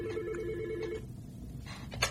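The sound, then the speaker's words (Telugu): An incoming call rings on a telephone: a faint electronic ring tone sounds for about a second, then fades into quiet background noise. “మనకు ఒక call వస్తుంది, ఒక్క నిమిషం తీసుకో.”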